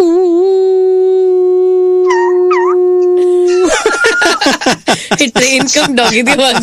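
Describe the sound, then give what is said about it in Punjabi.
A dog on a train howls one long, steady, loud note for nearly four seconds. A rapid, choppy burst of yelping, voice-like sounds follows. “Train ਚ ਕੁੱਤਾ ਵੀ ਹੈਗਾ ਸੀ ਨਾ”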